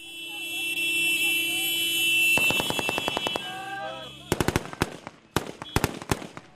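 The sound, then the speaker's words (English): Celebratory gunfire from NTC troops advancing near Harawa in Libya: a rapid run of automatic fire, then louder, sharper single shots and short bursts, with voices and other commotion around it. “Every day the NTC troops celebrate moving closer forward. The town of Harawa is now in their hands. Tanks and guns create a frenzy of excitement as they drive forward.”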